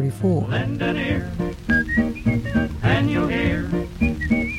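Whistling from an old 1934 song recording: a few short, high-pitched melodic phrases rising above a vocal and instrumental backing.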